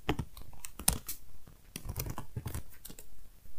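Typing on a computer keyboard, a quiet burst of quick, irregular keystroke clicks with brief pauses, and no talking.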